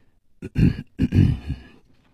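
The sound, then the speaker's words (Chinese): A storyteller's voice imitates a light cough twice, giving two soft, throaty bursts in close succession, alone with no other speech around them. “胡铁花轻轻地咳嗽了两声”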